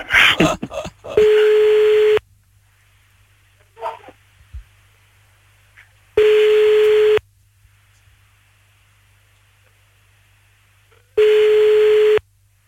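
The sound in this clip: A telephone ringback tone while a call is placed back to an uncle: three steady, evenly pitched tone pulses about five seconds apart, with a faint low hum between them and a few brief noises at the start.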